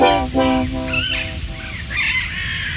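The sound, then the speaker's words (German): Parakeets and crows squabble loudly, trading harsh, overlapping squawks and shrill calls in a few bursts, some with a nasal, honking tone and others higher and screechier, over a steady rustling background. “was ihr da gerade hört, hoffentlich hört ihr es, das sind die Sittiche und die Krähen. Die liefern sich hier gerade einen echten Krawallstreit”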